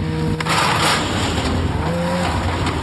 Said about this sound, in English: His ritual starts with towing his snowmobile to a parking lot. And then he starts his snow machine and drives it down a ramp off the trailer.